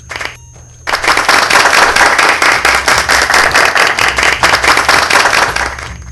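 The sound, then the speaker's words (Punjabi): An audience claps to welcome a program presenter. Loud, dense clapping starts suddenly after a quiet moment, pulses in rhythm, and eases off toward the end. “ਇੱਕ ਵਾਰ ਜ਼ੋਰਦਾਰ ਤਾੜੀਆਂ ਦੇ ਨਾਲ ਸਵਾਗਤ ਕੀਤਾ ਜਾਵੇ R ਜੇ ਰਮਨੀਸ਼ ਜੀ ਦਾ।”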